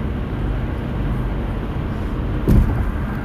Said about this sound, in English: As I'm driving around right now, while I'm driving up and down the highway, I'm in Ohio.